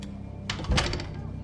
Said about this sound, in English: She slips back inside and shuts the door behind her.